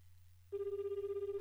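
A telephone ringback tone on an outgoing call, a steady mid-pitched tone with a fast pulsing warble. It cuts in after half a second of low hum and continues alone.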